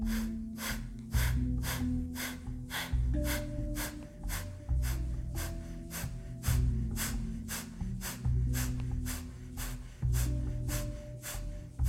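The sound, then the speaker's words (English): Fast, forceful fire breathing goes in and out through the nose. Many quick, even breaths repeat in a steady pulse over low sustained tones. “Go into a faster breath, a fire breath, only through the nose, in and out.”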